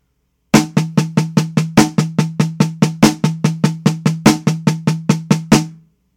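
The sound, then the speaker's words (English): A double paradiddle drum rudiment played at a faster tempo: many quick, evenly spaced drum strokes in a steady, driving run, with some hits slightly louder than others, then a short ring-out. “Here's what the double paradiddle sounds like a little bit faster.”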